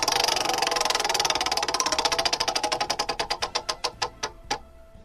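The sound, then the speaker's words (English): A prize wheel spins with a rapid stream of clicks that gradually slows into distinct, evenly spaced ticks before stopping. No one talks over it. “Let's spin the wheel.”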